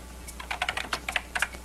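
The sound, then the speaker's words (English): Rapid, uneven keystrokes clatter on a computer keyboard as a heavy-handed typer strikes keys loudly in quick bursts over a steady low hum. “Very loud typer.”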